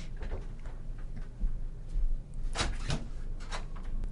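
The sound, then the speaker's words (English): Someone trying to open a door from outside: a couple of sharp clicks and rattles from the handle or latch over a steady background hiss. “I think there's somebody trying to get in, but okay. we're just watching her try to open the door.”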